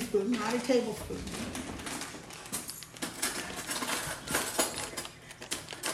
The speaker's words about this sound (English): Okay, so now I'm going to get me a teaspoon. Like just a standard teaspoon? Small one.